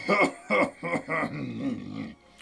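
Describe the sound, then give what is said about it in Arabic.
An elderly grandfather clears his throat with a few short, gruff voiced bursts, then a longer low rumbling rasp. The sounds are quiet and throaty. “تنحنح الجد وقال بهدوء:”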